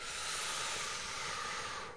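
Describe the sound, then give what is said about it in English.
A slow, gentle, effortless breath drawn in, heard as a soft, steady airy hiss that lasts about two seconds before fading away. “take another slow, gentle, effortless breath in as much as you can.”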